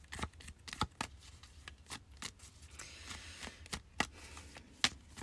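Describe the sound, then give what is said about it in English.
A playing card is pulled from a deck amid quiet handling of the cards: many soft, sharp papery flicks and snaps at irregular intervals, with no voices. “I'm going to pull one more card.”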